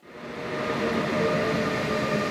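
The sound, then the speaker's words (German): A regional train pulls into a station on a single-track line, a broad, steady rumble that swells at the start and then holds loud and even throughout, with no voices. “Mit Verspätung fährt die Bahn aus Cottbus am Vormittag in Lübbenau ein.”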